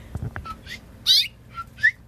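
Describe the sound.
A mother bird at her nest gives a few short, high whistled chirps, spaced irregularly, with one louder, fuller burst in the middle and a sharp final chirp.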